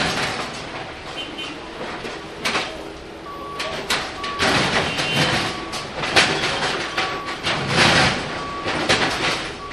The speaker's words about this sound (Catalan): el que estem sentint és com estan començant a afluixar els i les travesses, perquè quan la màquina pugui començar a treballar, ja les trobi fluixes, es pugui obrir el forat i començar a canviar.